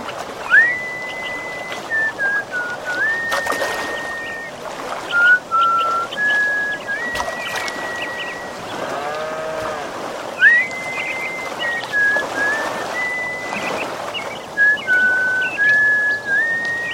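Small bird singing beside a stream: clear, high whistled notes, some held long and level, others short and sliding, repeated in phrases over a steady wash of flowing water.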